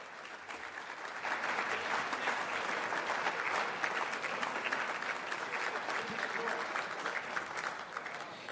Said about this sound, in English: Let's have one more round of applause for D.C.,